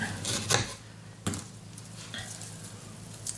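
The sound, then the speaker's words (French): A knife slicing a halved red onion into thin rings gives a few faint, irregularly spaced sharp cuts over a quiet background. “Après, quelques rondelles d'oignon rouge. On va couper en deux. Ça, c'est puissant aussi, donc on le fait assez fin.”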